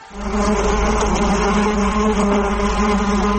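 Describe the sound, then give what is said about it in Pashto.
Honey bees buzz loudly at beehives, a dense, steady, continuous drone that holds without a break throughout. “زه خپله فعلا 300 صندقه مچۍ لرم او همدارنګه د دغه خپل کاروبار نه ډېر راضي یم.”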